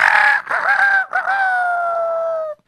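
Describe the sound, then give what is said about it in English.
A rooster crows once, loud and alone: two short opening syllables lead into a long, sustained final note that holds steady and then cuts off abruptly. “after the rooster crowed”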